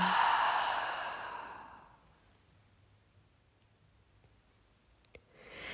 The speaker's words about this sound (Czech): Otevřeme ústa a vydechneme pusu.